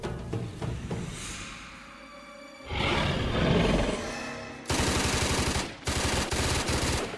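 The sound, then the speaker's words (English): Rapid automatic gunfire rings out in a frantic film scene. A stretch of rumbling, roaring noise gives way to two loud, sustained bursts of rattling shots near the end. “He's not afraid to shoot now, is he?”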